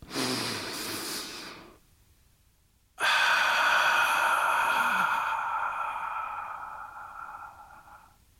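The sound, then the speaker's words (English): A deep breath drawn in two breathy rushes: a short one, a pause of near silence, then a longer, airy breath that slowly fades, heard alone without talk. “let's take a deep breath.”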